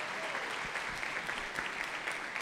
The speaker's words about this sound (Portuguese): Francisco e Luciene estão viajando, aplaudam o Senhor pela vida deles.